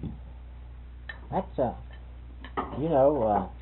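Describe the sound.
A spoon and dishes handled while someone gets milk: a few light clinks and knocks of cutlery against crockery, quiet, with people talking over them.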